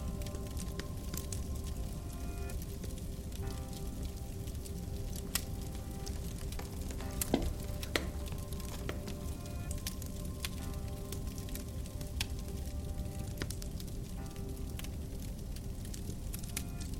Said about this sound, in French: Vos paupières vous reflètent l'image de la cheminée et des flammes qui dansent pour vous.